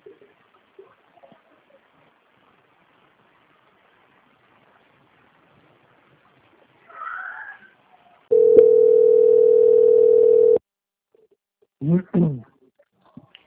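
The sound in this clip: A telephone line tone plays during a call transfer, one steady mid-pitched tone holding for about two seconds. Brief chirping sounds come just before and just after it, with near silence earlier.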